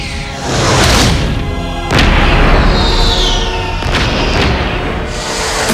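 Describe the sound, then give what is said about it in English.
Giant stone guardians of Atlantis clapping their huge hands together to raise a protective force field: heavy booming blasts with deep rumbling, followed by a sustained loud roar and a gliding, shimmering tone. “The huge stone figures with glowing eyes, guardians of Atlantis, move ponderously to stand above the city. They clap their hands together, creating a protective force field.”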